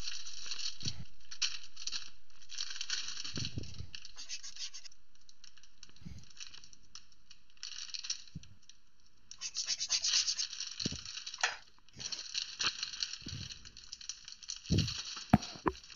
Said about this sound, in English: Am I gonna eat this bag of cheese curds? Yes, I am.